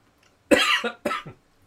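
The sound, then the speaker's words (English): Two harsh, forceful coughs in quick succession during a choking fit, each ending in a shorter rasping tail, followed by silence. “excuse me while I choke, a quick drink, sorry about that.”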